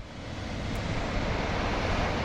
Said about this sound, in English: Water pours out of the Baells Dam north of Barcelona into the Llobregat River.